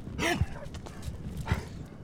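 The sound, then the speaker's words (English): A 14-year-old blind ranch dog guarding the house gives a couple of short barks over a steady, noisy background. “Gator, a 14-year-old blind dog, guards the house”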